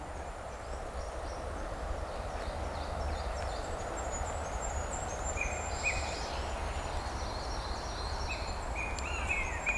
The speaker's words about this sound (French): son des oiseaux qui veillent